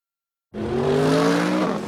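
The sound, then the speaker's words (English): Engine of a 2015 Mercedes-Benz CLA accelerating out of a hairpin turn: a loud, sustained drone with a steady pitch that cuts in abruptly after half a second of silence and holds to the end. “That isn't just the sound of the 2015 Mercedes-Benz CLA expertly accelerating out of a hairpin turn.”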